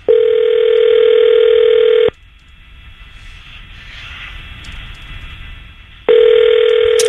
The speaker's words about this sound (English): calling Michelle and hopefully she picks up on a couple of rings here. It doesn't go to voicemail.